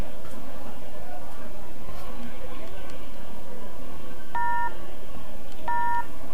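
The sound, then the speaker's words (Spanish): Telephone dialing tones sound as two short, clear beeps near the end, set against a constant, dense, noisy background. “vamos a ver, vamos, a, llamar. a Willy.”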